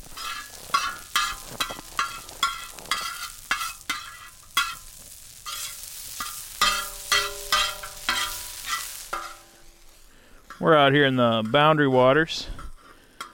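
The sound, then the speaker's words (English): A metal spatula scrapes and stirs food on a sizzling tractor-disc cooking pan in the Boundary Waters, giving many quick, rhythmic scrapes over a frying hiss, followed by a voice speaking briefly near the end. “That sound you just heard is a spatula on what we're calling today a disco.”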